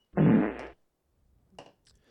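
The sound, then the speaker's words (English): A single loud, low, rasping fart lasts about half a second, followed by silence and a faint, brief rustle. “And today I finally found out why they have that saying, you never trust a fart.”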